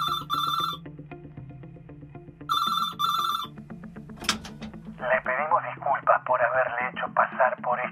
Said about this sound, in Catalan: 24 hores després sona el telèfon.